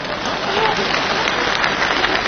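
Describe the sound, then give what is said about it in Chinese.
Sustained audience applause at a stage show: a dense, even wash of many clapping hands that stays loud and steady throughout, with a faint crowd murmur beneath. “你以为大伙这是给我鼓掌的？ 那没错， 这是给你鼓掌的。”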